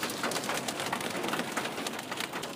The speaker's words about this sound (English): That is the sound of golf ball size hail coming out of the sky.